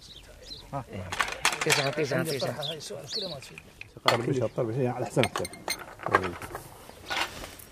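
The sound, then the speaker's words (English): Bowls of dry biscuits and glasses of sweet tea are set out, with small clinks and chinks of glass and crockery heard under people talking. “lays out bowls of dry biscuits and glasses of sweet tea, as he did 10 years ago.”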